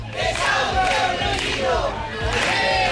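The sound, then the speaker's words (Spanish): Crowd at a housing protest in A Coruña chanting in loud, rhythmic unison, with a few surging shouted bursts over a constant mass of voices. “Las protestas en demanda de soluciones en materia de vivienda se han sucedido en las últimas horas. Este es el sonido de la de A Coruña.”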